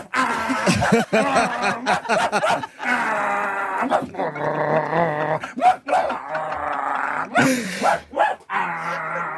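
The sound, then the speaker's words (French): A human voice imitates a series of alert dog barks: many rapid, varied yelps and growling bursts in an irregular rhythm, loud and nearly continuous for several seconds. “j'ai opté pour une autre fin, une série d'aboiements à la fois d'alerte et conclusif qui permettra un vaste champ d'interprétation.”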